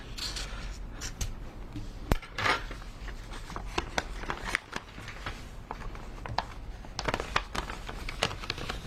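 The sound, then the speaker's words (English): Paper rustling as an envelope holding jury verdict slips is opened in a courtroom: faint, many soft crinkles and small crisp clicks. “He's opening the envelope with the slips.”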